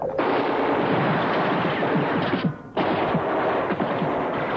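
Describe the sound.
Battle gunfire in a radio drama set in a mountain pass against German troops: loud, continuous machine-gun rattle and rifle shots that break off briefly past the midpoint, then resume just as dense.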